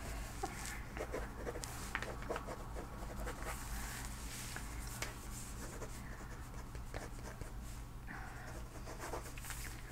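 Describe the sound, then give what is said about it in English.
Pen scratching as notes are written into a medical chart during a personal-attention physical examination: dense, continuous, soft scratchy writing with small irregular bursts that runs steadily throughout, with no voice over it. “Right, I'm just gonna write that down here. Just in your chart.”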